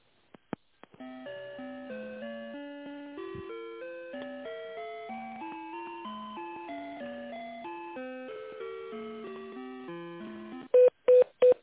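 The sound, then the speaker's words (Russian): A simple electronic on-hold melody of steady stepped tones plays while an office phone call is transferred to the chief accountant. It opens with a few clicks and ends with a few short, loud beeps. “Минуту, я вас переключу на главного бухгалтера.”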